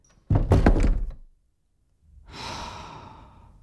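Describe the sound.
A door is shut firmly, a short burst of clattering, thudding impacts, then after a quiet pause a long, soft breathy exhale that slowly fades.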